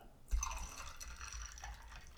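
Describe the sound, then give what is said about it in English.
Pineapple orange juice poured into a mixed drink, a faint, steady liquid pour that starts abruptly and runs on without a break, with no talk. “I'm going to fill the rest with pineapple orange juice.”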